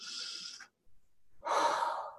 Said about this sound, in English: I want you to take a deep breath.